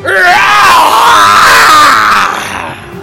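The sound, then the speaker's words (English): A troll in a fantasy tabletop game screeches loudly in pain after being scorched by fire: a harsh, drawn-out, strained cry with groaning, grunting overtones, sustained for about three seconds before tailing off. “So, absolutely 29 points of fire damage scorches this troll, and it just screeches loudly in pain.”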